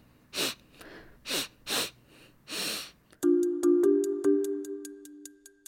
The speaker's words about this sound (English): Okay, so I heard some sniffing, but I'm not sure exactly what that is. Well, sniffing is a really important clue there.